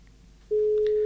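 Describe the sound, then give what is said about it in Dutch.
Telephone ringing tone heard while a guest is being called live. A single steady, mid-pitched tone starts halfway through and holds at an even level to the end, after a near-silent start. “ik stel voor dat we toch onze eerste gast dan maar gaan even inbellen. Ik zou het doen. Ah, gaat over.”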